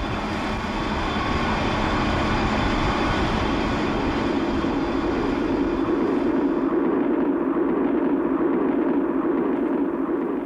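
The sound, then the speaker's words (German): A passenger train runs on rails between Naples and La Spezia in Italy, giving a steady, moderately loud rumble with a constant hiss above it and no distinct clacks or voices. “Wieder sitzen wir im Zug. Diesmal auf der Fahrt von Neapel nach La Spezia, einer kleinen Stadt am Golf von Genua.”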